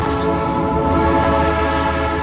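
A historic train runs at a heritage railway weekend event, giving a loud, continuous rumble with a sustained, horn-like tonal drone held steadily throughout.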